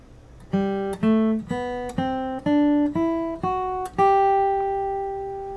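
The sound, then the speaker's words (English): A G major scale flatpicked on guitar in open position, higher octave: eight clear picked notes climbing step by step at a steady pace, the last one left ringing. “Here's the typical G major scale, as a flat picker might play it. In open position, I'm going to use the higher octave just for the sake of this lesson, and it sounds like this.”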